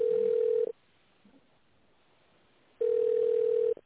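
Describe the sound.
A telephone ringback tone plays while a call is transferred: two steady low-pitched beeps, each under a second long, separated by a quiet gap of about two seconds.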